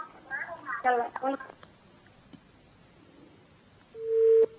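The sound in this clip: Telephone tone after a caller's line to a religious call-in session drops. Brief talk and faint hiss give way to a single steady, mid-pitched beep at the very end.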